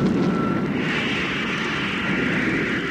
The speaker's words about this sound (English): Then we'll cut in the motor. I'll lift our nose and gain height.